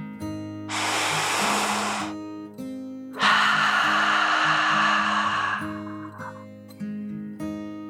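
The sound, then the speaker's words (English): A deep breath in and a slow breath out, two long, loud airy rushes separated by a short pause, over a soft sustained music bed. “Together, the friends took a deep dragon breath, in and out.”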